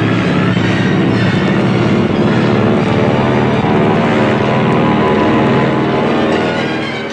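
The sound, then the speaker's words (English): A dense, loud roar of engines as Japanese carrier-based aircraft launch from a carrier task force for a strike on Oahu. The noise stays constant for the whole clip and eases slightly at the very end. “353 Japanese carrier-based aircraft are launched.”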